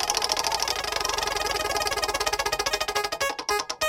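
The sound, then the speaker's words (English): A spinning prize wheel sound effect: a rapid run of rattling ticks that gradually spread out and slow toward the end as the wheel winds down, heard alone without talk. “Let's spin that wheel.”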